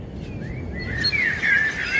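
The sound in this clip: A great tit calls during the nesting season, giving thin, high whistled chirps that grow into brighter quick trills, fairly faint over a low background rumble.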